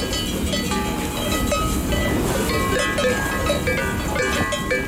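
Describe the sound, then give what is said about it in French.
Many bells clank continuously as a herd of farm animals, likely goats, moves around the listener, with a dense, steady bed of rustling and shuffling underneath and no speech. “Nous marchons au milieu du troupeau.”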